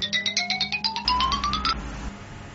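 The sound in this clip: A phone ringtone: rapid pulsing electronic notes that climb steadily in pitch, then merge into a sustained tone that fades out.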